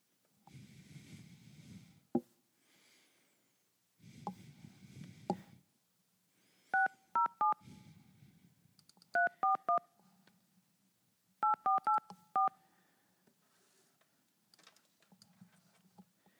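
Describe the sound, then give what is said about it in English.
Touch-tone telephone dialing: sharp two-note keypad beeps come in three quick bursts, with muffled low rumbling and faint handling noises before and between them. “Okay, let me know when you want to. Oh, I dialed it wrong.”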